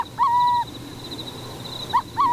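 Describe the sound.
Burrowing owl calls from a former depot fitted with artificial burrows: a few smooth, clear mid-pitched hoots, the first held for about half a second, with a faint steady high-pitched whine underneath.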